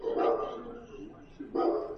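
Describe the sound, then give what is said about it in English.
Dogs barking in the background: a couple of bursts of barking, each about half a second long, separated by a short pause. “That's my dogs in the background, sorry.”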